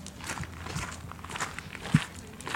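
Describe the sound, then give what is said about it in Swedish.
Footsteps walk through a pioneer vineyard planting set in 2006 at a Swedish vineyard. Many soft, quiet steps fall in an uneven rhythm, with one louder footfall near the end. “Ja, vi går just nu i en pionjärplantering som sattes då 2006.”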